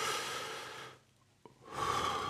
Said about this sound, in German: nehme ich mir die Zeit, atme einmal wirklich tief ein